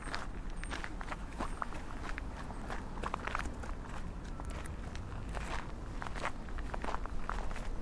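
Faint footsteps of people walking side by side, a steady run of many soft, quick steps.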